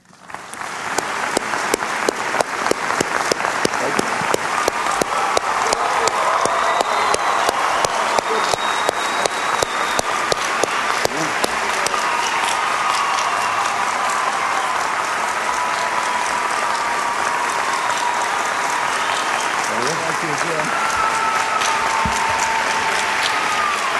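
Sustained applause from a debate hall audience welcoming President Bush and Senator Kerry: dense, steady clapping that swells quickly at the start and holds evenly throughout, with no voices over it.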